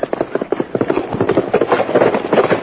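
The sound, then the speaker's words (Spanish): Horses galloping at full speed, a rapid run of hoofbeats that keeps a steady, driving rhythm and grows fuller and denser toward the end. “No me vieron. Allá vienen ya todo galope.”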